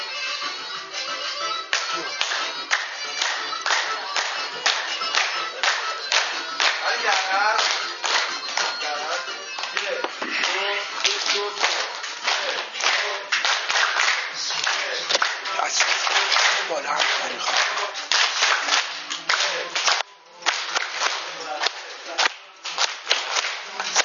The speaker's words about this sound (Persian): دست بزن هر کاری شما میکنی.